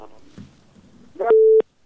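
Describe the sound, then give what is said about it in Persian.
A telephone line tone after a call is cut off: a short, steady, mid-pitched beep that follows faint, garbled voice-like noise on the line. “بله این تماس ما قطع شد. میریم تماس دیگه میگیریم.”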